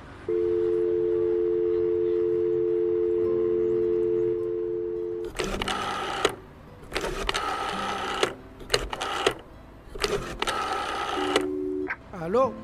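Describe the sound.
A telephone call being dialed: a steady, even telephone tone holds for about four seconds, then people speak in turn over the line, with a brief tone returning near the end.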